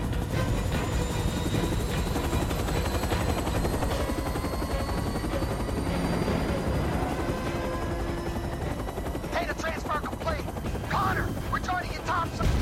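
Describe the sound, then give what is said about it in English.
A helicopter roars steadily as it lifts off with prisoners aboard. A loud, continuous rotor chop and engine whine run through the whole clip, with harsher bursts near the end. “He jumps into the helicopter. There's human prisoners aboard that thing, get after it! He nudges the seated pilot, who falls out of the chopper already dead. Connor takes his seat at the controls, and the helicopter lifts off.”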